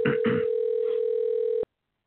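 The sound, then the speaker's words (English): A telephone tone plays as a call is dialed to reach a guest: a few short bursts at the start, then one steady tone that holds and cuts off abruptly. “And we're dialing, ladies and gentlemen. We're going to try to get our guest on.”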